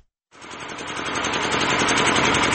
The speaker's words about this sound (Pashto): دا د صبرای ولسوالۍ اړوند یعقوبیو بازار کې د برېښنا یو پخوانی جنراتور دی چې د لوړ غږ، تیلو لوړ مصرف او تریخ لوګي په پرتله د برېښنا تولید په نشت حساب دی.